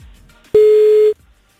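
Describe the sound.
A single steady electronic telephone tone sounds as a call is placed, a clear mid-pitched beep lasting about half a second that starts and stops abruptly against near silence.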